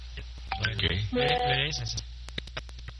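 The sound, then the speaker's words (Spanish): A telephone number is redialed after an unclear call, heard as a rapid run of short, sharp clicks following a stretch of talk. “No se le entiende nada. Vuelvo a marcar. Sí, vuelvo a marcar.”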